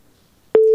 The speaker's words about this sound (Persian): تماسی شنونده ما هم قطع شد